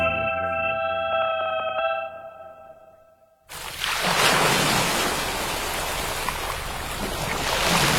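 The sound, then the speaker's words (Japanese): Ocean waves break into a loud, continuous surging roar right after a short stretch of soft tonal music fades out. The wash of water holds steady and swells again toward the end. “ザバンザバン、海が光っている。”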